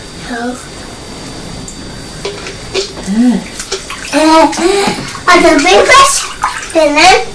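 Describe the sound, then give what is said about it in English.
A child splashes water in a bubble bath, with sloshing and splashing bursts growing louder and more frequent toward the end, while a child's voice and an adult's voice chatter over the water. “Splash of water. Splash of water. Just be careful splashing, won't you?”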